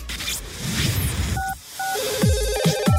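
Telephone tones sound while a guest is being called: a pair of short two-note dialing beeps, then a repeating warbling ring tone over a busy background with low swooping sounds.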